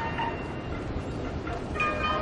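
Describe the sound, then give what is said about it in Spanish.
A train bound for Mashhad pulls out of the station with a steady, low rumble that swells slightly near the end, over faint high tonal squeals. “Se informa que el tren rumbo a Mashhad está saliendo de la estación.”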